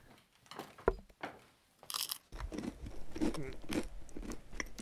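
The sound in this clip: Someone bites into a rye bread roll and chews. A few crisp crunches stand out early, followed by softer, continuous chewing and crumbling, all fairly faint.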